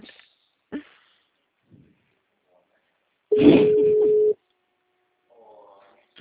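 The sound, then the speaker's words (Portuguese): A telephone line tone after a dropped call: one steady, mid-pitched tone lasting about a second, with faint, brief voice fragments before and after it. “Alô? Oi, caiu a ligação”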